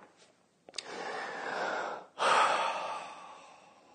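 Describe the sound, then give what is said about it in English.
Deep breaths drawn from the diaphragm: two long, airy, rushing breaths, the second louder and fuller, heard alone with no talking. “then take a deep breath from the bottom of your diaphragm”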